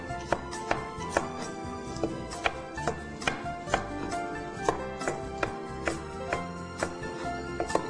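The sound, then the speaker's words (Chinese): A knife slices carrots into rounds on a cutting board, with many quiet, crisp, evenly spaced chops in a steady rhythm. “我们可以趁这个时间稍微处理一下我们的这个红萝卜哈，红萝卜，红萝卜我们切片就可以了哈。”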